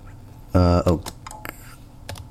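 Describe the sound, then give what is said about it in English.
Typing on a computer keyboard while entering an email address and password for a sign-in: a few faint, sharp keystroke clicks following a brief loud spoken word. “Type email and password.”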